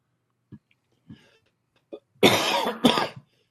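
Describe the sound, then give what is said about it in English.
Coughing from someone with a lingering cough: three short, faint coughs spaced apart, then two loud, harsh, rasping coughs in quick succession. “Still got the cough.”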